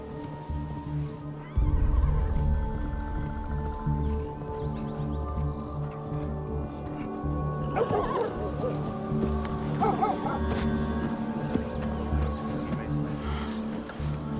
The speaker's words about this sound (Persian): یه سوار داره میاد سرورم.